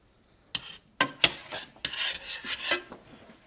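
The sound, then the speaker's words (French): A utensil scrapes against a pan as melting butter is stirred, giving several short, faint scraping and clinking strokes in an uneven rhythm with no voices. “On mélange.”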